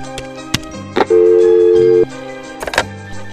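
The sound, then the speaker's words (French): Telephone dialing in a video game, a few short electronic blips followed by a held steady tone of about one second, then a few more quick clicks and beeps, with no voices. “Il ne me reste plus qu'une solution. Je vais devoir appeler quelqu'un d'autre.”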